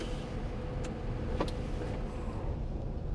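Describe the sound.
A car is put in gear and starts to drive off during a driving lesson: a steady, low engine rumble with a couple of faint mechanical clicks over it.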